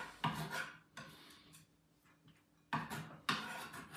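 Faint scraping and clatter as chopped leek is moved into a small bowl, heard as a few brief bursts of rubbing and light knocking separated by quiet gaps.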